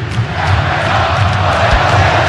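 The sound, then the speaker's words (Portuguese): Football fans chant a player's name during an Atlético–Cruzeiro derby. Massed voices rise in a loud, sustained roar that stays heavy throughout. “a torcida gritando o nome do Everson agora.”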